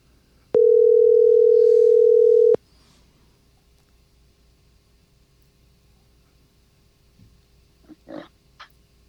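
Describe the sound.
A telephone ringback tone heard while calling someone back: a single steady, mid-pitched tone lasting about two seconds against near silence, followed later by a few faint clicks and small noises.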